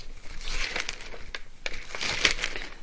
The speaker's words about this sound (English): So I'm going to turn over there. Excuse my papers.